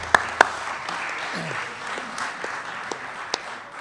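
Light applause welcomes two people at a church meeting, a soft, even patter of clapping with a few sharper individual claps standing out near the start and toward the end.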